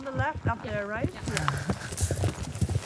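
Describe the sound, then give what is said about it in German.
An Icelandic horse walks, its hooves making a few soft, rhythmic clip-clop footfalls. A voice talks continuously over the hoofbeats. “Er möchte nicht Erster sein. Sleipnir möchte nicht die Herde anführen. Mit Pass und Tölt beherrschen Islandpferde zwei Gangarten mehr als andere Rassen.”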